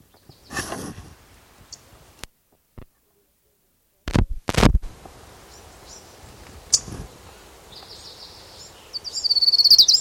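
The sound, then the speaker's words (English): Warbler song in the background: high, thin chirps and a fast trill grow strongest near the end, mixed with scattered sharp clicks, noisy bursts and a short silent gap earlier on. “background warbler number two.”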